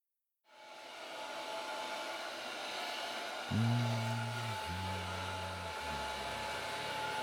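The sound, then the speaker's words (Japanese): A hair dryer switches on and blows steadily while drying someone's hair. It makes a continuous whooshing hum, and its low motor tone shifts partway through. “髪乾かすのうまいな。気持ちいい。”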